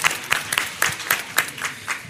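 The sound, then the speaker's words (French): An audience claps at a quiz show, a brief round of applause made of sharp, irregular hand claps of moderate loudness, with no voices over it. “Applaudissements pour lui derrière.”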